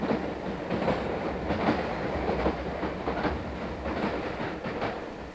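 A train passes at a station, a steady rumbling roll with rhythmic clickety-clack wheel beats over the rail joints, fairly loud and without voices.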